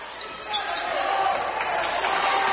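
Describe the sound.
A basketball dribbled during a game bounces repeatedly against the court, the thuds set over a steady wash of crowd noise.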